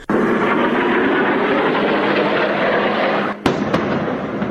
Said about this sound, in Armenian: Գազայի հատվածի բնակիչների գլխավերևում ոռնոցով անցնում են իսրայելյան օդուժի մարտական ինքնաթիռները